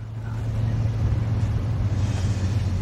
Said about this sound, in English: Jack drives away with Diane sitting next to him.